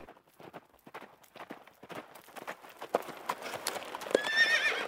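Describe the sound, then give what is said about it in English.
A horse pulling a butcher's wagon out of Sherwood forest toward Nottingham, its hooves clip-clopping in a quick, steady rhythm that grows louder, with a brief whinny near the end. “he saw a butcher's wagon coming from within Sherwood and going toward Nottingham.”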